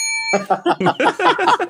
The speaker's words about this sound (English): Where's my bell? I got it right here.